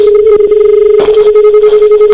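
A telephone call rings out with a loud, steady single-pitch ringing tone made of rapid repeated pulses. No voices are heard.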